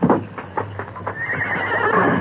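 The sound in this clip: A horse, a bronc grazing near a door, gives a high, wavering whinny that swells and holds to the end, following a few soft hoof clops.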